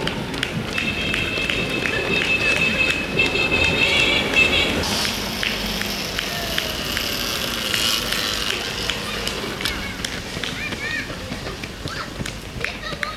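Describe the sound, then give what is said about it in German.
Footsteps of the lead runner in a race passing by: a quick, steady patter of many steps over a dense, noisy background. “Und der Spitzenläufer ist schon wieder an mir vorbei.”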